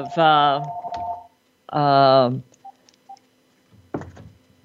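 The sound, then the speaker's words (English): A house phone rings with two long warbling electronic tones separated by a short pause, followed by a brief burst of sound. “oh goodness, I forgot to shut my house phone off.”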